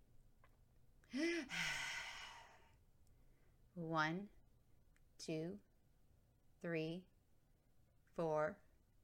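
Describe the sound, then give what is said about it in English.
Slow, labored breathing from a woman on an oxygen mask with low oxygen levels and fewer than ten breaths a minute: hollow, voiced, sigh-like inhales, each followed by a quick exhale, spaced at long uneven gaps and faint overall. “Each hollow inhale is followed by a quick exhale.”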